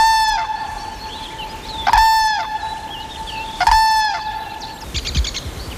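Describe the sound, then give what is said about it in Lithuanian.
Common cranes call in the early morning: three loud, harmonic, trumpeting calls spaced a couple of seconds apart over quiet outdoor background, with no voices. “Šį ankstų rytą mus sveikina gervės.”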